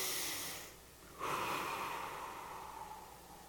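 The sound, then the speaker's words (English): A slow breath drawn in, a soft airy nasal hiss that begins after a brief lull and carries on for a couple of seconds, faint and alone. “Pause. Breathe in.”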